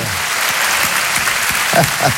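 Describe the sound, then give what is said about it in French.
Audience applause and an ovation for a guest who rode a moped along the motorway to a show, a steady, dense wash of clapping that holds at an even level for the whole stretch. “C'est déjà un exploit, ça mérite une ovation.”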